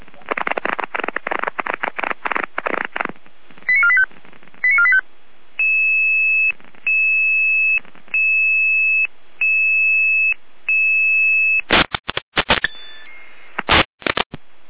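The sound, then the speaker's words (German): Fire brigade dispatch alerting tones come over the radio: a rapid burst of pulsed beeps, then five long, even, steady tones in a regular rhythm, ending with a few loud, harsh bursts. “Leitstelle Gerreende mit Alarmierung.”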